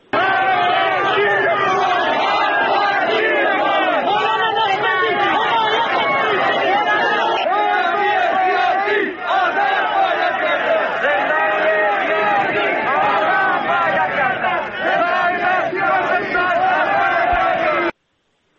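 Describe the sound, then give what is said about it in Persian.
Protesters chanting slogans in the streets of Zahedan make a dense, loud crowd roar of many voices that runs without a break for the whole clip. “در خیابان‌های زاهدان شروع به راه رفتن کردن، شروع به تظاهرات کردن، شعارهایی رو سر دادن مثل تمام این جمعه. بخشی از شعارها رو و فضایی رو که همین الان در زاهدان هم ادامه داره رو میتونیم با هم”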